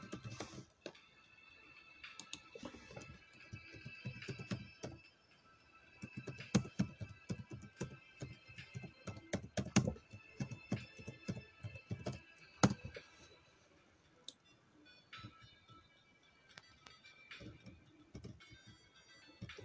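A chat message is typed on a computer keyboard in many rapid clicks that come in bursts over a steady humming tone, thinning out toward the end.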